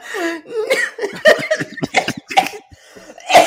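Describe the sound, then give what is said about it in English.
Spluttering coughs from a man choking on his own spittle, a run of short rough bursts mixed with voiced, laugh-like sounds and gasps, ending in a louder burst. “I just completely choked on my own spittle.”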